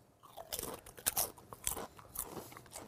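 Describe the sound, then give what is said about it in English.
Crisp, crunchy bites into a 7-Eleven spicy guacamole snack, a few fairly faint crackling crunches followed by chewing. “Yeah, usually if something smells good, I'll take a bite out of it. They actually smell pretty good. Ooh, they do. Let's try to give it a whirl. Here we go. Spicy guacamole from 7-Eleven.”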